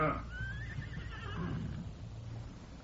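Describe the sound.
A horse whinnies where riders have stopped to water their horses at a narrow stream along a ridge. It is one shrill, wavering call over a steady low rumble.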